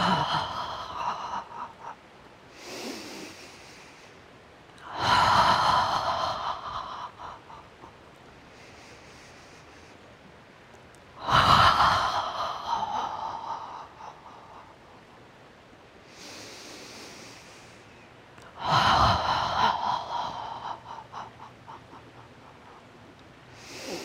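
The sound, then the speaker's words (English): Purging yoga breaths: three cycles of a soft inhale through the nose, each followed by a loud, breathy exhaled 'ha' that fades out, with quiet pauses between them. “So we'll use a purging breath. Inhale through your nose. Exhale with a ha.”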